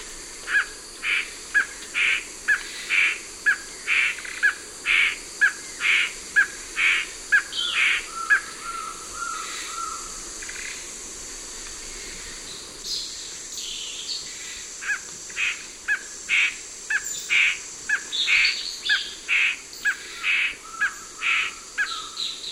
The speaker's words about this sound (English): Gray Ant Bird.